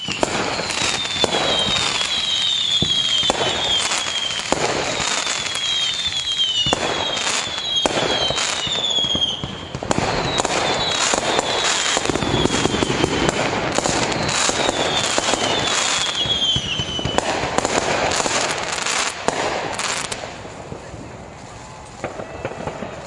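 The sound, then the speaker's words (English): A fireworks display sound effect made of dense, loud bangs and crackles throughout. Several high descending whistles from rockets cut through, and the barrage eases slightly near the end. “with a little help from Shanze's quick thinking, they turned the mistake into a spectacular fireworks display that lit up the room with”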